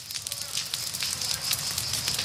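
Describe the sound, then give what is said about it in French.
Flames from a forest fire, rekindled by the wind, crackle and hiss in a steady stream of fine pops and sizzling. The fire is fairly faint and continuous throughout. “le vent vient de faire repartir les flammes”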